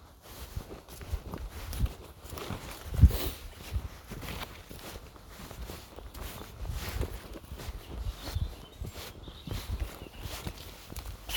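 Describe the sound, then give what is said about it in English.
A Labrador skirting around makes many soft, irregular padding footsteps and rustles, fairly quiet, with occasional slightly sharper thuds. “Labrador skirting around.”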